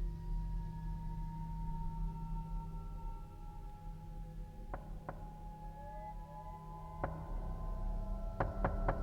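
Knocking on a door, a few sharp raps in short clusters over a steady, droning musical tone.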